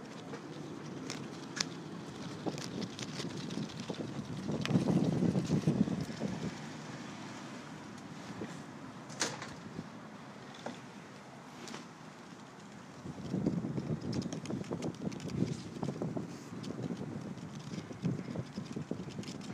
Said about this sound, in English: The sounds of leaves in the wind.